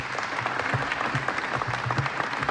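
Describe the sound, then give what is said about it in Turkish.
Concert audience applause at an Istanbul Radio Turkish folk music concert, from an archive recording: steady, moderately faint clapping that continues evenly throughout. “Alkışlar devam ediyor ve huzurunuza Şef Mehmet Erenler geliyor efendim.”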